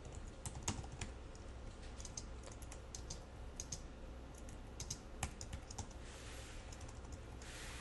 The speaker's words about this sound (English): leave off the end of the semicolon like I demonstrated a little bit earlier, and I start typing the next line of code